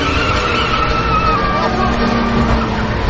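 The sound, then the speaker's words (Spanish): A car reverses away during a chase through heavy traffic, its engine giving a steady, continuous drone with a thin whining tone held throughout. “Ella mete la marcha atrás y se aleja.”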